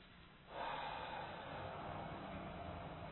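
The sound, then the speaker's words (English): A group takes a deep breath together and exhales during a breathing exercise: a quiet moment, then a sudden airy rush of breath that holds steady for nearly three seconds. “Everybody take in a deep breath and just let it out. No, nothing else, just let it out.”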